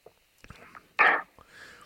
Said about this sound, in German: Das ist sehr dunkel, sieht schon aus wie Malzbier. Boah, riecht auch leicht stark. Ich würde mal kurz probieren. Ja, ich trinke auch mal kurz einen Schluck.